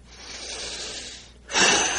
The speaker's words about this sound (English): So we take a big deep breath,